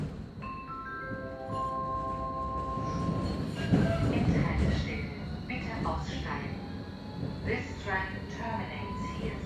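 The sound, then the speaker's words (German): A train pulling away, with a brief stepped electric whine at the start, then a steady rolling rumble with light clinks and faint voices beneath. “Irgendwann fährt die Bahn endlich weiter.”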